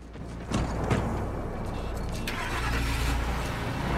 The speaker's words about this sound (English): Seeing a policeman looking right at them, they get into a hire car and drive off.